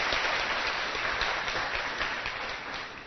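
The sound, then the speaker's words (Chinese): An audience at a youth summer study retreat applauds themselves with dense clapping from many hands, continuous and fairly loud with a muffled tone, easing slightly at the end. “你们给自己掌声一下。”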